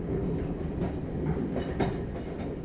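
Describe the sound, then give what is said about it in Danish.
A Berlin ring-railway train runs with a continuous low rumble and rolling rattle of wheels on track, steady throughout with no voices. “Og det fede ved ringbanen, det er, at den bare kører rundt og rundt og rundt i ring. Og det tager den cirka en time at komme hele vejen rundt. Et fantastisk tog.”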